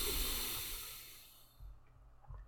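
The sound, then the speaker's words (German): A slow nasal exhale through the left nostril during alternate-nostril breathing: a soft, breathy hiss that gradually fades, followed by a few faint low bumps. “Wechsel mit dem Daumen, links ausatmen.”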